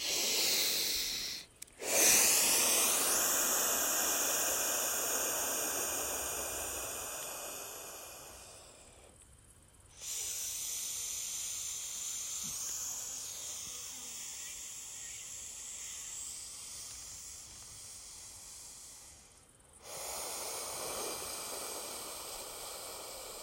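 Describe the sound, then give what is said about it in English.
Slow, deep breathing, drawn in through the nose and let out through the mouth, as a few long, steady airy breaths with brief pauses between them and no talking. “Let's finish this with a few deep breaths. Let's go a few deep ones, all right? So in through the nose, out through the mouth.”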